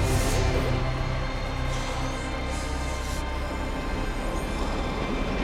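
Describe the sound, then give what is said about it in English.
A train speeds along through the dark, giving a continuous loud rumble with a rough, rattling texture and no voices. “The train speeds through the dark.”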